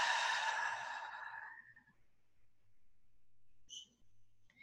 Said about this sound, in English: Nice deep breath.